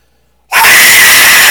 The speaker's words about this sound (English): the reason why it's making that noise is because air is coming out of it in different directions because it's in a tube. And those different tones and different directions is what gives it that screaming sound effect.